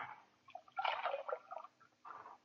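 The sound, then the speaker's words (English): Water splashes and sloshes as a bullet wound in a man's chest is washed, in a few soft, uneven bursts of dripping and squishing, quiet throughout with no voices. “Let me wash his wound. Take a look at it. I'll wet the scar.”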